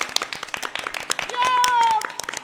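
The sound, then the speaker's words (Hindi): Audience clapping to welcome performers onto a stage. Many sharp claps fall in an irregular patter, and they blur into a denser burst midway before thinning out again. “तो इनका तालियों के साथ स्वागत करें।”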